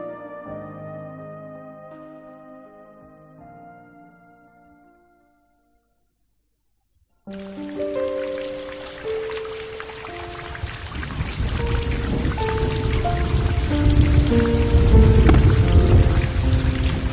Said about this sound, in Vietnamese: Mưa đến nửa đêm còn chưa dứt